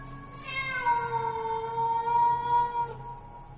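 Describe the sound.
A black cat yowls eerily from up near the rafters: one long, drawn-out, high-pitched cry that holds steady for a few seconds before fading, heard alone over a faint background.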